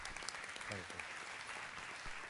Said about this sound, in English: today I want you to put your hands together and welcome Henry Liu